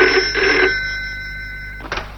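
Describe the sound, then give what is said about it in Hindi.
A telephone bell rings as a call comes through to a governor, one long bright trill that fades, then a fresh burst of ringing near the end, heard alone without voices. “तभी governor साहब के पास धर्मदास यानी धर्मात्मा का phone जाता है”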